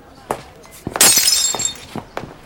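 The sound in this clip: A drinking glass breaks while gripped in a hand: a sharp shattering burst followed by bright, tinkling fragments that ring on for about half a second, with a few duller knocks before and after.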